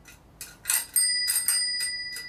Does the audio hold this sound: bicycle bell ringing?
yes